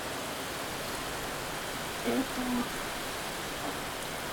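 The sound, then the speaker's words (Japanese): Heavy downpour rain makes a steady, even, low-level hiss throughout, with no break in the sound. “僕は30分くらい前からここで雨宿りしてます。”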